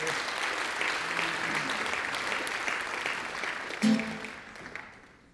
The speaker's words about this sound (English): Clap your hands to the Lord.